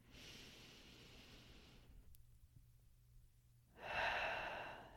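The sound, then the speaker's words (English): A deep breath, breathy and faint: soft airy noise, a brief quiet pause, then a stronger, fuller breath near the end. “So take a deep breath with me if you didn't already.”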